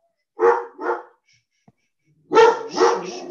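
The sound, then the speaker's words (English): An agitated male dog barks loudly in two pairs of sharp, deep barks, with a quiet pause of over a second between the pairs. “Yeah, that's my dog. He's freaking out over you.”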